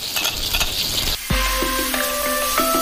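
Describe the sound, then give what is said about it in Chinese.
Pickled cabbage hits hot mountain pepper oil in a Hubei-style stir-fry, and a soft hiss jumps into a loud, sustained sizzle that keeps crackling to the end. “用山胡椒油爆香酸菜，再加上大量的蒜末”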